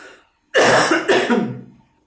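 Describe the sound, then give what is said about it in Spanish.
Coughing inside a tent: two loud, harsh coughs in quick succession, the second slightly weaker, trailing off into silence with no talking. “Pero en esta tienda de campaña cada tanto hay algo de tos justo ahora en este momento.”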